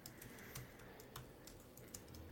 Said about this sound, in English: I'm just going to type in MCU how many hours